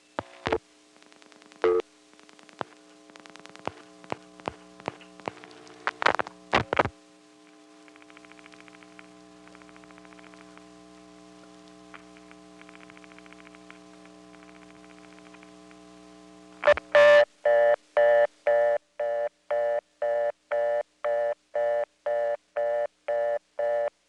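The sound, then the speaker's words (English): Telephone line sounds as a 756 number is dialed and hung up before sending: bursts of dial tones and clicks over a faint steady hum, then a sudden loud burst of the trunk flash followed by a long run of regular, evenly spaced beeps. “Now I'm going to dial a 756 number and hang up before it even gets a chance to send anything. You'll hear the trunk flash.”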